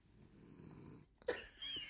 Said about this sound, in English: if you hear that snoring, that is the dog.